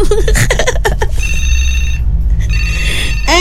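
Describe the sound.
A telephone rings with an incoming call to a radio station. Bright electronic tones repeat in bursts, loud and clear, over a steady low background.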